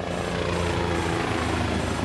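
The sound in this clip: Helicopter engine and rotor noise heard from inside the cabin: a dense, steady roar with a fine rhythmic rotor chop running unbroken throughout.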